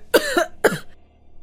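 A man with tuberculosis coughs twice. The two harsh, rasping bursts come about half a second apart, and the second trails off into quiet.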